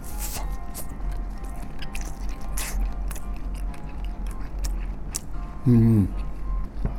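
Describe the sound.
Someone chews crunchy pen shell clam, making faint, crisp bites and squishy mastication over a steady low background hum.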